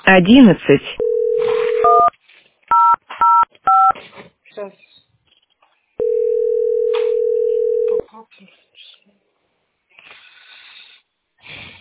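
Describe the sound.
Telephone keypad dialing tones on a call to a settlement center's phone line: a few short, clear dual-tone beeps in quick succession, set between two long, steady tones, with brief other sounds around them.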